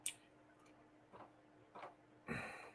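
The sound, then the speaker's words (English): A clock ticks faintly in a horror video game, giving a few slow, evenly spaced soft clicks over a quiet background. “Oh, fucking clock when it chimes. Bong, you're dead.”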